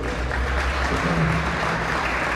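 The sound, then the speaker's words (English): An audience at a community gathering claps in a dense, steady burst of applause that fills the whole clip, with no talk over it. “So if you can clap it up for Linda Marcelli.”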